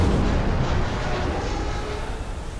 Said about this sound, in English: Before anybody aboard could recover their senses, a second salvo tore into the Johnston.